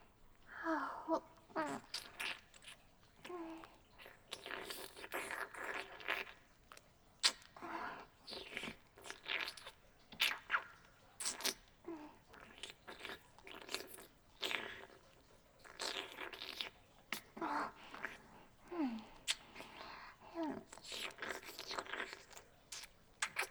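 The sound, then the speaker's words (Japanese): Wet licking and mouth sounds: soft, moist smacks and crunchy clicks in repeated bursts, fairly quiet throughout, with no speech. “もう少し舐めさせていただきますね。”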